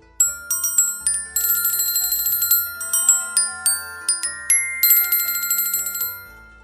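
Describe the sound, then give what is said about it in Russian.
Pleasant chiming of small bells: many bright, high tinkling strikes in an uneven steady run, each ringing on briefly before the next, heard alone without voices. “Абер хлопнул в ладоши. Раздался приятный перезвон невидимых колокольчиков.”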